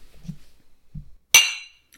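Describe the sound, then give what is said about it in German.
Glasses clink together in a toast: one sharp, bright strike that rings briefly and fades, preceded by a few faint low sounds. “Warte, wir müssen noch anstoßen.”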